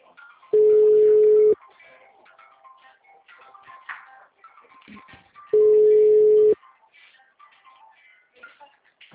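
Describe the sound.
Ringback tone of an outgoing phone call: two long, steady beeps, each lasting about a second and spaced about five seconds apart, with faint background noise between them.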